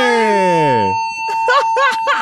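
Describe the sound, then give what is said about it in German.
An alarm goes off: a steady high tone holds throughout while a loud wailing sweep falls in pitch, and then a person speaks over the continuing tone. “Oh nein, nein, das ist Alarm jetzt”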